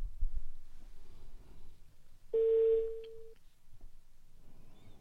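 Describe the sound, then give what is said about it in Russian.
An outgoing telephone call with one steady ringback tone, a mid-pitched buzzing note lasting about a second. It stands out against quiet low background noise before and after. “Мы звоним третьей нашей девушке”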